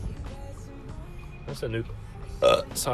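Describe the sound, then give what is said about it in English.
A loud, throaty burp rumbles out in a few rough bursts, the final stretch the strongest, with a low guttural rasp. “That was a loud burp, holy crap, sorry.”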